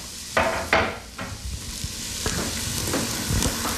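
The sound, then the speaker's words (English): Onions sauteing in oil in a pan give a steady, bright sizzle, broken by a few sharp scrapes and clatters of stirring near the start. “So we're sauteing the onions, and you really want to hear the heat on the onion. You want to hear that they're cooking.”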